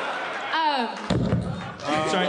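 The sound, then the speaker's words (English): A chair thumps on stage during a live show in Chicago: one dull, heavy thud, with people talking just before and after it. “Sorry. That's the chair. That was the chair.”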